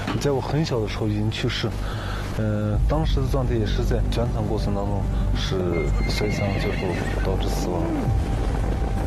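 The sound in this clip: Horses neigh repeatedly and hooves clop as herders ride along a dangerous snowy mountain path in winter, with loud whinnies rising and falling over continuous voices and movement.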